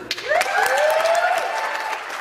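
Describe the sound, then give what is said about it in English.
MPPs applaud in the Ontario legislature chamber with steady, dense clapping as a voice rises briefly over it. “MPPs on both sides of the chamber applauded her when she was presented to the speaker.”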